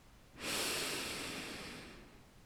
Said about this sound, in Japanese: 鼻から息を吸います胸の方に息を入れます吸って